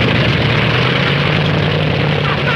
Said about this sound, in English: The propeller spins and fails. Give! Give! The crewmen watch the propeller fail again, then spin to life.